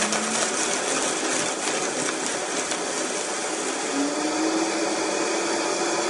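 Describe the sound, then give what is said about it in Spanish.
Blender whirring as it purees corn kernels with milk: a loud, continuous, steady motor drone with a gritty texture. Its hum climbs slightly in pitch partway through and holds to the end. “Desgranamos los choclos, ponemos en una licuadora, agregamos la taza de leche, los licuamos aproximadamente 2 minutos.”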